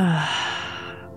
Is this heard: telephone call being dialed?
no